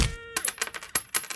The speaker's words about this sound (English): That sound is me getting hit in the gut while my money falls out.